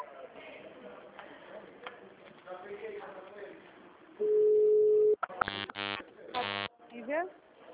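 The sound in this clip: An automated telephone answering system plays a steady, pure beep lasting about a second after a recorded voice prompt. A few loud, buzzy tone bursts follow.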